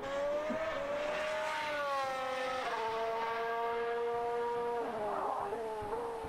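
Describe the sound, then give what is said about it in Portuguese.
Formula One race cars scream past in an intense midfield battle, their high engine whine climbing steadily through the gears with a couple of sharp drops in pitch at gear changes, loud and continuous. “Briga intensa ali no pelotão intermediário, Sebastian Vettel em oitavo, Fernando Alonso em nono”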